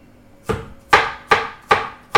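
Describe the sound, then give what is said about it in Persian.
A knife finely chopping garlic for seasoning chicken makes five crisp, sharp strikes in a steady, even rhythm, each a quick attack that fades fast, with no talking. “چون میخواییم فقط طعم بده و زخم مرغ رو بگیره، سیرامون رو خیلی ریز خورد میکنیم.”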